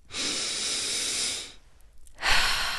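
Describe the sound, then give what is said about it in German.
A deep breath in and out: a long, steady, airy inhale lasting over a second, then a short near-silent pause, then a strong, loud exhale, heard alone with no talk. “Lass uns einmal tief ein- und ausatmen gemeinsam.”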